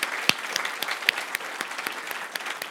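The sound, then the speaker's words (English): A church audience applauds in welcome, a thin scattering of claps with a few sharper standout hits over a soft, continuous patter. “If you're in the house, can you put your hands together and welcome everybody else? Let them know how happy we are.”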